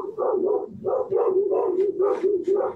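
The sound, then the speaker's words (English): Dogs barking in a fast, steady run of many mid-pitched barks, loud and nearly continuous, with no talk over them. “As dogs continue to bark at my prayers. Yes, they do.”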